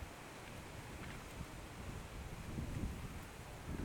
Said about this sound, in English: And here's the wind.